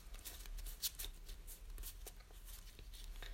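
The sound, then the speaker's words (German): Playing cards are handled and sorted during a tabletop game: faint, scattered rustles, flicks and soft slaps of cards, with one slightly sharper snap early on. “Okay, verdächtige Karten. Die übrigen Karten müssen wir einteilen in die Stäbelchen.”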